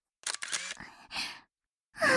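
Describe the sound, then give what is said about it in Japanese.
Camera shutter firing while a photo is taken: a few short, crisp mechanical clicks in quick succession, with a brief pause before the last one. “写真撮ってる。見せて見せて。”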